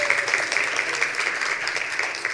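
Audience giving a round of applause for a guest, dense and fairly loud clapping that holds steady for the whole stretch.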